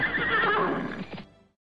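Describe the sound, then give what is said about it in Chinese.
An Ili horse gives one loud whinny lasting over a second, a bright harmonic call that fades out at the end, heard alone. “吃苦耐劳、奔走如风的伊犁马很快就吸引了草原先民的注意。”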